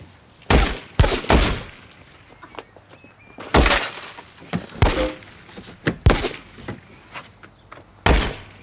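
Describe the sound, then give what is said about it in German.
Gunfire in a police shootout, with a vehicle's window pane shot and broken: many sharp, loud bangs in irregular bursts, some in quick pairs, mixed with cracking, shattering glass. “Er schießt die Bullenschlampe, er schießt die Schlampe ab! Wir haben die Scheibe kaputt”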